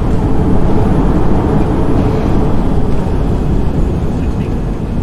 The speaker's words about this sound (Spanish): Solo es el despegue.